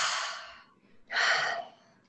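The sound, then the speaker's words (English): A deep cleansing breath taken during a guided eye-massage relaxation exercise: a breathy airy inhale that fades out, a brief pause, then a louder, fuller exhale that trails off softly. No talking is heard. “Just take a cleansing breath.”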